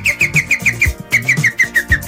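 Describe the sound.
Green woodpecker calls: two runs of several sharp, evenly spaced laughing notes separated by a short gap. The notes sit over a low, rhythmic background.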